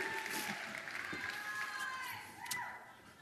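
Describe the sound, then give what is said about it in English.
An audience applauds a volunteer called up on stage, a soft, steady patter of clapping with some crowd noise running beneath a speaking voice. “You be my volunteer. Give him a hand, please. Give him a hand.”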